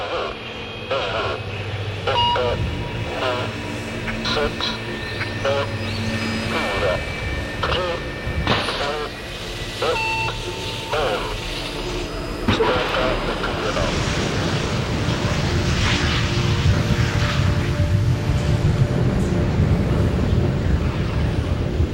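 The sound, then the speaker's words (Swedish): A voice counts down from a control tower, then a rocket lifts off with a loud, broad rushing roar that builds in the second half and holds to the end. “Raketen lyfter från marken och försvinner upp mot himlen.”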